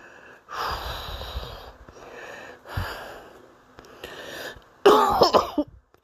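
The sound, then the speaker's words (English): Coughing from a person: a few rough, breathy coughing bursts, then a louder, harsher fit of coughs near the end, with no talking. “I'm sorry for the coughing so much.”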